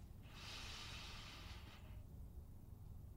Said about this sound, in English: And then I take a deep breath.